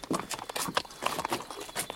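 Horses' hooves clop as a horse dealer shows off several horses. The many quick, irregular hoof strikes are fairly faint and there is no talk.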